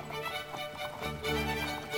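Clip-clop of horse hooves pulling a coach, a horse-drawn carriage leaving town on a foggy November day, steady and fairly faint, with a low rumble of wheels joining underneath.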